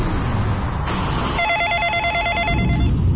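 A telephone rings in a domestic phone call scene, the ring a rapid, pulsing, warbling electronic tone repeated in a steady pattern over a low background hum.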